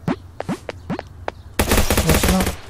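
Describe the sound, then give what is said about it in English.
Gunfire in a multiplayer video game: a few short, rising chirpy blips, then a loud, dense rattling burst of rapid shots that fills the last second without a break. “Oh, and someone is trying to shoot at me, and they just shot the item.”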